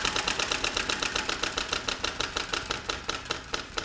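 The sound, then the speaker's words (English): Prize wheel spinning: a long, fairly faint run of many bright, even ticks in rapid succession, the gaps between them widening slightly toward the end as the wheel slows. “All right, lean over and give the wheel another spin.”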